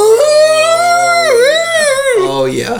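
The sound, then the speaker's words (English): A voice imitates a silverback gorilla rearing up on its haunches and roaring: one loud, sustained, howling cry that wavers in pitch, dips, swells again and breaks off, without any other sound. “Have you ever seen a silverback gorilla get up all on its haunches and go,”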